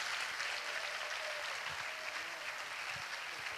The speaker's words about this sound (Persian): به افتخار خودتون که خلاقید، بی‌نظیرید، زندگیتون رو تغییر میدید، به افتخار خودتون بزنید.